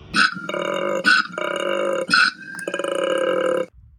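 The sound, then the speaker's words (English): A koala bellows with deep, rasping, belch-like calls: three short harsh snorting bursts, each followed by a long buzzing, droning grunt. The calls are loud and alone, and they end abruptly. “What is that noise? That is the wonderful sound of a koala.”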